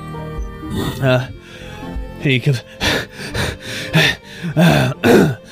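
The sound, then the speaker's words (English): A voice imitates heavy, out-of-breath panting for a hurried squire carrying a big bag in a fantasy tabletop game: a run of breathy gasps and huffs, uneven at first and then quick and rhythmic. “You are approached by a squire of the Bronze Drakes in a hurried breath. So he's very much out of breath, carrying a big bag on his side.”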